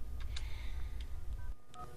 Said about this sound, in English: He dials a number.